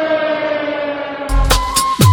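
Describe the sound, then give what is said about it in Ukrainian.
An air raid warning siren sounding in the city of Kamianske, a sustained, steady droning tone with strong harmonics, followed by a few louder, noisier bursts. “прохання до всіх мешканців Кам'янського перейти в укриття. В місті лунає повітряна тривога.”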